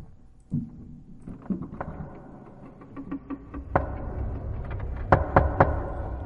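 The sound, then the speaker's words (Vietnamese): Knocking on a door: several sharp knocks spaced irregularly over a low background, ending in a quick group of three louder raps. “ở bên ngoài, một lần nữa kỳ quái lại vang lên tiếng gõ cửa.”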